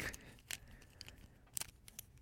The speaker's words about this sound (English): May I put my hand in it? Absolutely.